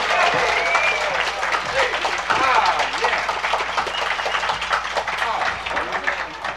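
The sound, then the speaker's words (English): An audience gives a welcoming round of applause for a nine-year-old fiddler on stage, a dense, steady clapping that holds loud and even throughout. “Would you welcome Ronnie Stewart? How about a nice hand for him?”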